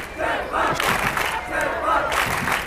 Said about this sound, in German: Von über 2000 Jugendlichen aus dem deutschsprachigen Raum wurde er begeistert begrüßt.